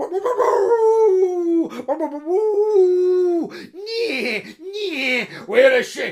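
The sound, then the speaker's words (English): A pack of hunting dogs on a scent howls: long, drawn-out tonal howls with wavering pitch, then several shorter howls and yips overlapping one another. “Here came that pack of bride hunters. The dogs came first.”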